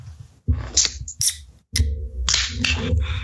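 A few sharp clicks and snaps as a beer, an IPA, is cracked open, then a loud hiss of escaping gas that carries on as steady fizzing to the end.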